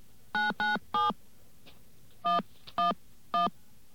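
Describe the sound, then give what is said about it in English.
Touch-tone DTMF beeps as a telephone number is dialed: six short, clear tones, three in quick succession, a pause, then three more evenly spaced, over a faint steady background hiss. “Okay, let's make a telephone call here. And those of you who are really clever will be able to figure out what it is I'm dialing.”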